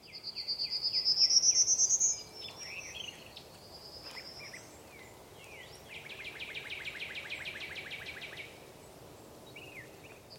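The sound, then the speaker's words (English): Songbirds and insects in a meadow at a forest edge near a state park trailhead in southern Indiana: a loud, bright whistled phrase opens, followed by softer chirps and a steady pulsing insect trill. “You can hear road sounds and construction in the distance, but the foreground is full of songbirds and insects.”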